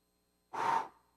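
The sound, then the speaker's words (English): A person blowing out air in a single short breathy rush that lasts under half a second and tapers off, heard alone in near silence. “What am I blowing out? It's wind.”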